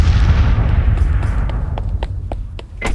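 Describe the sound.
Grenade explosions in a chaotic sports-field scene: a loud, rumbling blast with a long, noisy, roaring decay, and several sharp crackling pops scattered through the later part.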